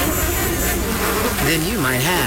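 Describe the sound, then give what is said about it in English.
Hungry mosquitoes swarm and buzz on a hot, 90-degree day of yard work: a steady, wavering insect whine that rises and dips in pitch, running throughout beneath a speaking voice. “with a swarm of hungry mosquitoes buzzing around,”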